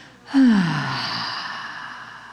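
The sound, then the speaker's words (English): A deep breath let out through the mouth during a guided breathing exercise, opening with a short voiced sigh that drops in pitch, then a long, steady breathy rush that slowly fades. “Take a nice full breath in. Big breath in through your nose. Let it out through your mouth with a”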